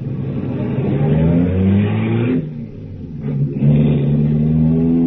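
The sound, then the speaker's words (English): A car engine accelerates as a newly bought car is driven, and its steady whine climbs in pitch. The note drops briefly, then rises again under a loud, continuous engine drone with no voices. “Impressive machine, this. I love it, but I'm really not used to it yet. I just got it last week. You drive it very well.”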